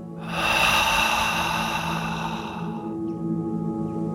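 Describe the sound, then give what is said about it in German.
A deep breath in through the nose and out through the mouth during a guided relaxation exercise. One long, loud, airy breath swells quickly and then fades into quieter breathing over a steady soft tone. “Schließ deine Augen und atmet mit mir tief durch die Nase ein. Und mit offenen Mund aus.”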